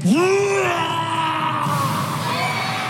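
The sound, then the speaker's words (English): A performer's voice imitates a dragon drawing in breath during a live stage show, a loud, sustained, groaning tone that rises quickly in pitch and then holds with a rough, strained edge. “Here's Mulligan at Madison Square Garden in January playing a dragon. Calvaxis breathes in.”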